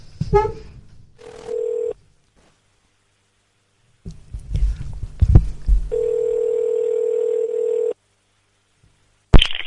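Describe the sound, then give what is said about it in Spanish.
A telephone call is placed: a few clicks and line noise, then two long, steady ringing tones separated by silence. A sharp burst follows at the end. “Ya estamos llamando. A ver lo que pasa.”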